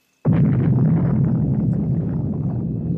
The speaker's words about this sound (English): The atomic bomb. Yeah, that's pretty loud.